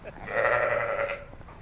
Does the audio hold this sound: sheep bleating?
yes